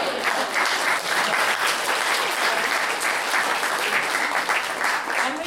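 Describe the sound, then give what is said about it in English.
Steady, dense audience applause that fills the whole stretch, loud and even, with no single voice standing out. “Round of applause.”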